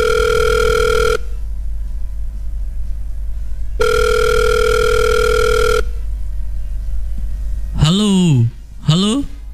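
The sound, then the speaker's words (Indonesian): Telephone ringback tones sound on a call to a band member: two long, steady buzzing rings separated by a pause, over a low hum, and then a voice answers over the phone line. “Kita coba hubungi Rangga.”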